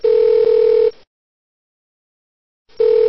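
A telephone ringing tone on a call line gives a steady, buzzy hum in two bursts, the first about a second long, then a pause of near silence before the second begins.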